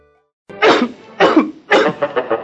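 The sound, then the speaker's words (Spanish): Coughing in a lozenge advertisement: three loud, rasping coughs spaced about half a second apart, then a quick run of smaller, choppier coughs, with no talking. “Evito la tos con pastillas Penetro.”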